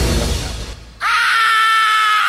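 A loud, sustained high-pitched scream cuts in about a second in and holds steady to the end, after a dense, rumbling noisy opening.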